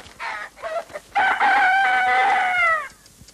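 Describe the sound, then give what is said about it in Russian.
A rooster, tethered by a rope on its leg, gives a few short clucks and then one long, loud crow that holds its pitch before trailing off, heard alone. “На каменную кладку трубы взлетает петух.”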